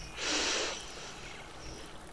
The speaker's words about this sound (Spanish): Vamos a cerrar nuestros ojos y vamos a hacer tres inhalaciones y tres exhalaciones profundas. Inhala por la nariz.